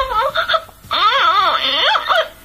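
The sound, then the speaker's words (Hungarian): A baby crying with loud, high wailing sobs that bend up and down in long drawn-out bursts, broken by a short pause partway through. “Tehát így sír a baba.”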